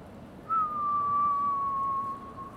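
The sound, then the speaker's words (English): A single whistle blown out while exhaling a drag of smoke: one clear, steady tone held for about a second and a half that sags slightly lower in pitch toward the end, then stops abruptly. “take your drag in and then just whistle it on out.”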